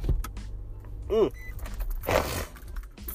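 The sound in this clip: A car's power window motor whirs briefly as the window rolls up, a short rising hum against low background rumble and other scattered noise.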